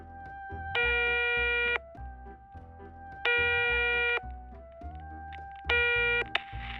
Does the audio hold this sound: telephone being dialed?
yes

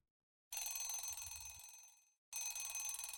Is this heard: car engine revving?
no

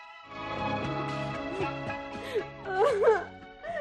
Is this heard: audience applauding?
no

